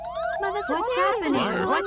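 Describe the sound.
A fire alarm sounds with wailing, sweeping tones that repeatedly rise and fall, fairly loud and continuous, while voices talk over it.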